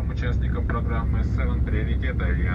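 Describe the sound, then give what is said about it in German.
Steady low cabin drone of a Russian S7 Airlines passenger airplane in flight, a constant rumble running under voices talking throughout. “Nicht mit Gazpromavia, sondern mit der russischen S7 Airlines fliegen wir nach Novi Urengoi, einer Großstadt nahe am nördlichen Polarkreis.”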